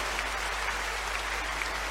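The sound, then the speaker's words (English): A church audience claps in praise during a worship service, producing a steady, even patter of many hands at moderate volume with no voices over it. “Is somebody clapping some more for the Lord?”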